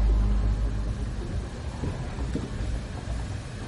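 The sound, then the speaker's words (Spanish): Steady low rumble of car engines as two BMW cars drive through city traffic just after leaving a tunnel, a continuous deep roar with no voices. “Dos BMW circulan tras ellos.”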